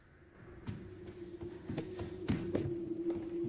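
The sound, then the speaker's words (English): Quick footsteps creeping across a landing: a few soft, irregular thuds and taps over a steady low hum, with no talk. “She pauses for a moment, then creeps quickly across the landing.”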